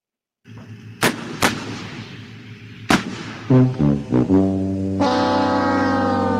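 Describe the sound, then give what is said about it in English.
Tank cannon firing as a sound effect: three sharp, loud blasts with ringing tails, then a run of short blaring horn-like tones that settle into one sustained tone. “I was like, do we have a sounder for this we want to use? Do we want to use the tank sounder for this?”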